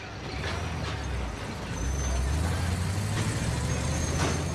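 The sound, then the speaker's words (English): A tow truck arrives and brakes: a low, steady engine rumble under broad noise that grows slightly louder partway through, with faint brief hissing bursts. “The tow truck arrives back at its premises.”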